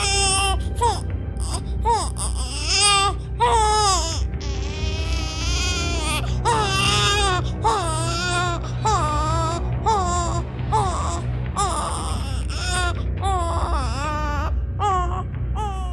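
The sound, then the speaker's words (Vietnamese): A wounded monster lets out a shrill, piercing wailing cry, much like a baby's crying. Loud sobbing bursts waver up and down in pitch, with only brief breaks throughout. “ra sức gào khóc, tiếng khóc chói tai nghe mà nẫu cả ruột cả gan.”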